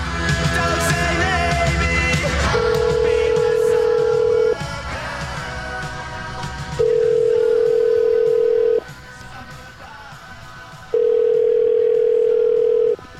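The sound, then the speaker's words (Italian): Telephone line tones during a call to a hotel: three long, steady electronic beeps separated by pauses of a couple of seconds, with a busier background sound beneath them, thickest at the start. “Io proverei a chiamare questi signori dell'albergo.”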